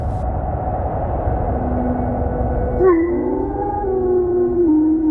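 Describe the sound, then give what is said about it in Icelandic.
Wolves howling: long, wavering, tonal cries that enter partway through, slide up and then hold and gently fall, layered over a steady, rough rumbling background. “Úlfarnir sem elta sól og mána.”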